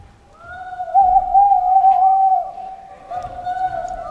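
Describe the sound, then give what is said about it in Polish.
An owl hoots in autumn: two drawn-out, wavering mid-pitched hoots, the first longer than the second, with no other sounds around them. “Potwierdza to nam pani Sowa. Bardzo mądra pani Sowa. Też się cieszy z jesieni, dlatego że właśnie teraz rozpoczyna się jej sezon na pohukiwanie.”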